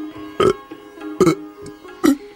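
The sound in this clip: Three gentle burps from people at an Indian meal, short low belches spaced evenly apart over a faint steady musical tone in the background.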